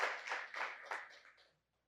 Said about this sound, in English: Can we give those that are going to be baptized here a big hand? We're going to cheer and we're going to applaud them later, but let's go ahead and give them a big hand right now